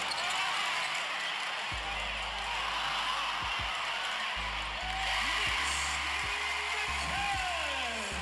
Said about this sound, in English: this is in the game, and this is a guy scoring. He gets a rebound, gets a layup.